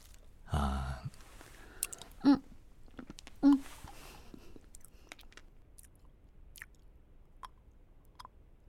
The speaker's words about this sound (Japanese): あなたの目の前に飴があります。ご主人が作った飴です。口の中でゆっくり溶かしながら食べてみて。